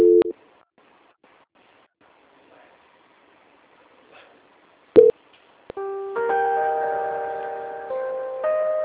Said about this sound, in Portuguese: A ligação vai ficar muda, mas eu tô na linha, tá? E peço que o senhor aguarde. Ok. Transferência.